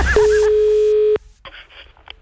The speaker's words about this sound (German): Telefon.